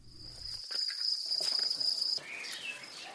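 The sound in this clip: Crickets chirp on an insect farm raised for flour: a steady, shrill, continuous trill that holds at an even level, then cuts off near the end.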